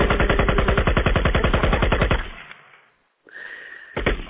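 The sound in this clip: Rapid automatic fire from an AK rifle: a long, loud, continuous burst of many closely spaced shots that then trails off into quiet, followed by a short, sharper burst near the end.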